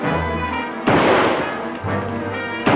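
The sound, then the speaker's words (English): A pistol gunshot from a film fight scene cracks out loud and sharp, its blast decaying into a ringing tail, and a second loud burst hits at the very end. “The soldier draws his pistol and shoots him in the gut.”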